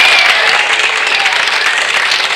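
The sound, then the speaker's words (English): A golf crowd applauding on the fairway, loud and dense, with a continuous wash of clapping that holds steady throughout without pause. “And now, the confident McCarthy is walking up the fairway to the roar of the crowd.”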